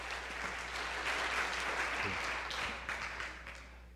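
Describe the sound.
A church audience applauds to welcome a guest speaker at a service, a dense patter of clapping that stays steady and loud, then thins and fades toward the end.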